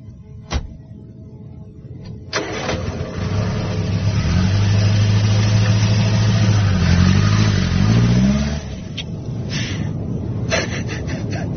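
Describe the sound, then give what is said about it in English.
A car engine as the car drives off: a sharp knock early on, then a steady engine rumble that swells louder and climbs in pitch as it accelerates before easing back down. “Now, go on. Drive off and don't hang around. Just drive off now.”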